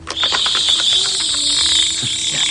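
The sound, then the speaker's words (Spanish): A howling cricket from Amityville chirps inside a small box being shaken, with rapid rattling clicks at the start and a steady, high-pitched buzzing chirp that carries on throughout, with no talking. “algo que te va a encantar, un grillo aullador de Amityville.”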